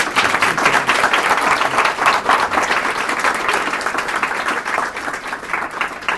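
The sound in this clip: Sustained audience applause after a talk and question session: a dense, steady wash of many hands clapping at an even, strong level for the whole stretch, with no voices on top.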